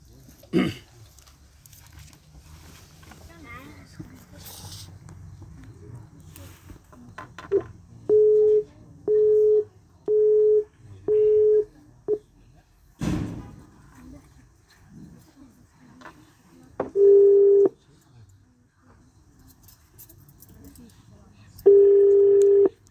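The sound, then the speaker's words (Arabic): Telephone tones while placing a call: a run of five short, evenly spaced beeps at one steady mid pitch, then two longer single tones several seconds apart, over a faint hiss and a few soft knocks. “نتصل مع شيخنا الشيخ مشهور، الله يحفظه، شيخنا وحبيبنا”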